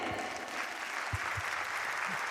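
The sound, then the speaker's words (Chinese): An audience applauds in a soft, even wash of many hands clapping, with a few low thumps scattered through it. “感谢观众朋友哦，梦婷妈妈的掌声，谢谢，谢谢大家，谢谢。”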